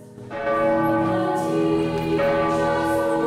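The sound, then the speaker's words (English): A church bell tolls in a tower at the opening of a school's academic year. Two loud, ringing strikes sound alone, each leaving a long, humming resonance. “The students make their way in, and up in the tower, a bell tolls.”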